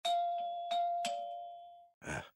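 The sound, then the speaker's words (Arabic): Doorbell chiming insistently: a few bright ding strikes in quick succession whose clear tones ring on and overlap, then fade, followed by a brief noisy burst. “من الذي يفاجئني بهذه الزيارة؟ لم أعطي موعدا لأحد. ما هذه الوقاحة؟ رنين مستمر.”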